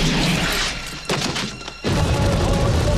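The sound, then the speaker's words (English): A gunshot from a pistol taken from a dead man's holster, fired in a corridor, cuts through dense noise as loud, booming bursts with a sudden blast near the end. “One of the other men takes aim at her. She shoots.”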